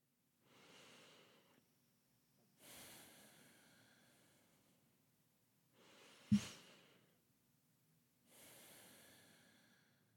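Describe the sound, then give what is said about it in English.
Two deep breaths, each a slow, airy inhale and a long exhale, soft and alone with quiet pauses between; a short, sharper burst marks the second breath. “Let's start with two deep breaths.”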